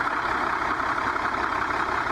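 A long-distance coach bus engine runs with a steady, unbroken mid-to-low drone that stays at an even level throughout, with no talking.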